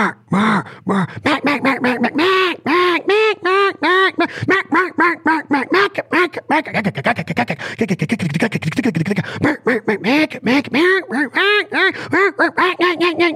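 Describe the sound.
Handheld duck calls imitating a whole flock of ducks: a loud, nearly continuous stream of many rapid quacks and chattering feeding notes, varied in pitch and rhythm.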